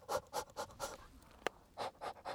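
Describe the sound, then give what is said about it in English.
Quick, rhythmic breaths huff into a clump of desert leaves cupped in the hand outdoors in Arizona in winter, many short puffs in a steady pattern, broken once by a brief sharp click. “grab a clump of leaves and kind of cup them in your hand, and then you're gonna breathe into it like this.”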